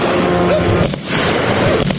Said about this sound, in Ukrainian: так звана ППО чи то намагається збити дрон, чи то стріляє по резервуарах з нафтою.